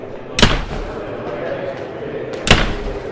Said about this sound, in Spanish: La aglomeración entra presuroso, cerrando las puertas de los dormitorios con un fuerte portazo.